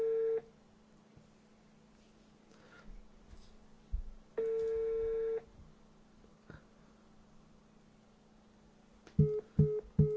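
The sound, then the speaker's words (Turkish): Telephone call tones sound while a number is being called: a short steady electronic tone, then a longer one after a pause. Near the end comes a quick cluster of beeps and clicks. “Fotoğraf dayıyı arıyorum.”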